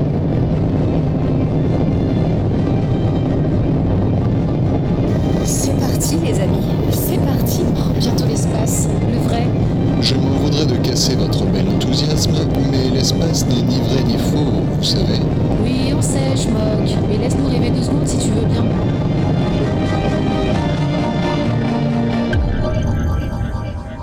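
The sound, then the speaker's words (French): Spacecraft thrusters ignite for liftoff in an audio drama sound effect, producing a sustained, heavy roaring rumble with crackling high hiss through the middle. A voice speaks over the continuous roar, which cuts off abruptly at the end. “Top. Allumage des propulseurs. Et décollage. Tous les paramètres à bord sont normaux. La propulsion est nominale.”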